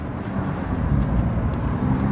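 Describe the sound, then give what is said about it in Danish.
A vehicle driving at a little over 40 km/h gives a steady, dense low rumble of engine and road noise that stays even throughout, with no talk. “Kører I hurtigt, eller hvad er det, der foregår? Altså, lige nu kører vi sådan lidt over 40 km i timen.”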